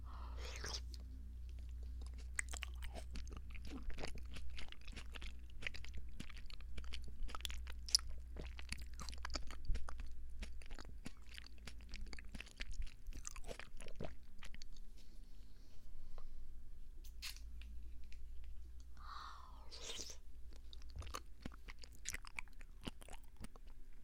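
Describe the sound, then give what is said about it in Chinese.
Chewing and biting into a food with orange pulp inside, heard as many soft, crunchy, wet mouth clicks in an irregular rhythm. Fairly faint, with quiet whispering at times. “再吃这块。哇，这是一大口”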